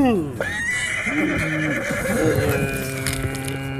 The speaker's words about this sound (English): he snatched a horse with a vice-like grip, tearing the creature from limb to limb with savage ferocity.